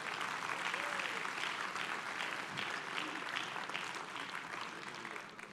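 Church audience applauds as a pastor is welcomed to the stage. The clapping is full and sustained and eases slightly toward the end.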